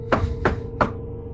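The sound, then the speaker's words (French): Three sharp knocks on a door, evenly spaced and fairly loud, with no voices. “Ça vient de toquer à la porte.”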